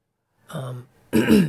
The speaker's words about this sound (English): excuse me, all the throat clearing